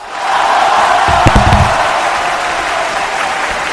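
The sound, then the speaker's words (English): A microphone gets bumped, giving a few brief low thuds near the middle over a steady roar of crowd noise and applause that fills the background throughout. “I also bumped my microphone there. Sorry if that hurt your ears.”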